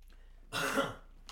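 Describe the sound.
A single short, rough throat clearing from a person with an irritated throat, a harsh raspy burst heard alone and fairly faint.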